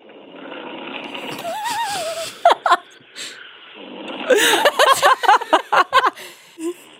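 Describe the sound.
Congested nasal breathing during sleep: a wheezy, whistling whine on the breath, then a rapid run of many short, sharp snorting bursts through a blocked nose.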